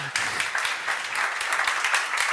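Audience applause for a colleague at a gathering, a brief burst of dense, lively clapping that starts abruptly and stays loud and even throughout.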